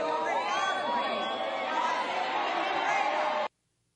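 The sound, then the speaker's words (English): At a political rally, a heckler yells while the crowd boos, forming a dense, continuous mass of voices and jeers that stays at a steady level before cutting off abruptly. “So you hear that, he's screaming and yelling, people are booing, boo, boo, he's talking, he's holding up a sign saying Bill Clinton is a rapist.”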